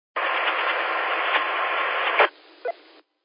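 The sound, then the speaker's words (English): Truck engine droning in the background over a CB radio channel: a thin, steady, band-limited mechanical buzz lasting about two seconds, then dropping to quieter static with a brief click before cutting off. “Yeah, when you're not talking, it sounds like a machine running in the background. But when you're talking, you wipe that out completely, and it's only you. That might have been the truck.”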